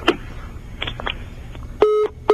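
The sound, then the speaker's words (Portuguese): Phone tones sound after a dropped call: a few soft clicks, then two steady electronic beeps, the first longer and the second cut short, both loud against a quiet background. “Oh, caiu a ligação do Dudu.”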